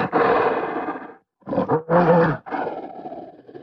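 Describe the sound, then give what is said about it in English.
Large gorillas roaring: a few deep, rough, growling roars, the first long and sustained, then shorter bursts separated by brief gaps, loud and without other sounds. “That's the sound of gorillas, animals which can grow to around 250 kilos.”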